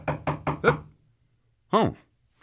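Knocking at a door late in the day: four quick, sharp raps in a row, followed by a pause.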